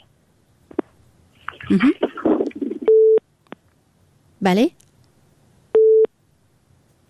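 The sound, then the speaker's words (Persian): A telephone busy tone sounds after a phone-in call is cut off. Two steady, single-pitched beeps come with a silent gap between them, and a man's voice speaks briefly before and between the beeps. “صدای ما را دارین؟ خب تماسشان قطع شد.”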